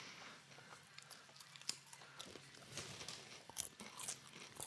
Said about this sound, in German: Ich entschuldige mich jetzt schon für das Schmatzen und das Knuspern.